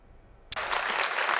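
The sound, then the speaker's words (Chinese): Warm applause from conference attendees in Dakar after a keynote speech. Dense, sustained clapping starts abruptly after a moment of near quiet and stays steady to the end. “在达喀尔的会议现场，与会人员对习近平主席的主旨演讲报以热烈的掌声。”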